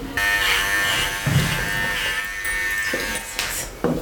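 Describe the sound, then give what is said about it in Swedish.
An electric clipper buzzes steadily as it shaves an older, thin animal's fur before a blood draw. The hum stays loud and continuous, with slight changes in tone and a few soft knocks as the blade moves. “Precis, jag rakar, spritar och sätter på stasen lite försiktigt här.”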